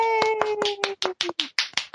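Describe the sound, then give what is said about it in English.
A small group clapping in celebration. A short run of separate, sharp claps comes in an uneven rhythm, and the first few overlap a sustained vocal tone before the claps continue alone. “I think we should clap.”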